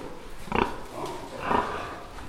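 Pigs grunt, transgenic pigs bred smaller and fatter. Two soft, snuffling grunts stand out over a faint, noisy background.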